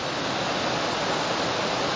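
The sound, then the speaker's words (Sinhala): Flowing stream water rushes in a continuous, even hiss, broad and steady with no breaks or voices. “දැන් ඔන්න මුලින්ම සද්දය අහනකොට ඇලක් කියලාවත් දන්නේ නැහැ. දැන් එතෙන්ට ගිහින් බලනකොට මොකද වෙන්නේ? මේ සද්දෙයි”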